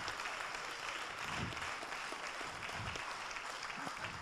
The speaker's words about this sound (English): And let's applaud our baptismal candidates.